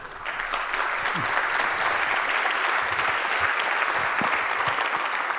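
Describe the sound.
An audience applauds a speaker as he is introduced before a security talk. The clapping is a dense, steady wash of many hands, evenly loud from start to finish.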